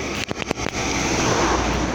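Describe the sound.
A river, the Torrente Scrivia, flows with a steady, broad rushing wash that holds constant for the whole clip. A few brief knocks or clicks come in the first moments.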